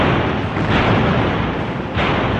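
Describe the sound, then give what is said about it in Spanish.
Spanish cannon fire in a 1589 naval battle at La Coruña against a British fleet: two heavy booming blasts rise out of a continuous loud, rumbling roar. “Los barcos británicos, conocedores a la perfección del mar, eluden esos cañonazos, eluden ese disparo artillero y entran en la ría.”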